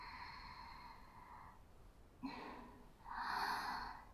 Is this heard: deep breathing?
yes

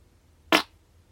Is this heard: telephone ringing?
no

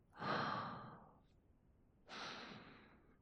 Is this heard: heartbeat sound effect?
no

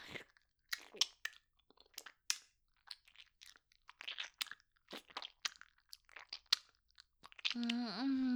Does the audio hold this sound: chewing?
yes

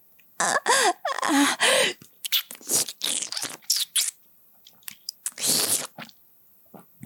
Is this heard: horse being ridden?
no

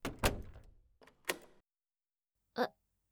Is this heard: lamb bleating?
no

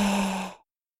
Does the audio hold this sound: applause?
no

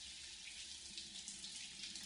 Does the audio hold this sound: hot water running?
yes

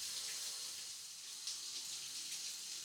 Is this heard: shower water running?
yes

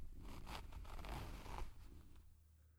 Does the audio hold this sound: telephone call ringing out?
no

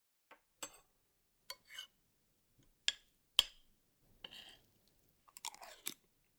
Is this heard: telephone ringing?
no

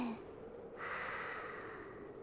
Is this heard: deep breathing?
yes

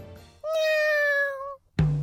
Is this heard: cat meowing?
yes

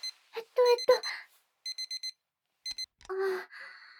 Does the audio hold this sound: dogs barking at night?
no

